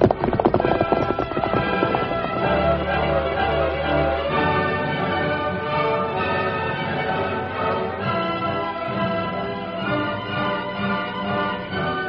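Galloping hoofbeats of the horse Silver, a steady, rapid clip-clop that runs loud and unbroken through the whole passage.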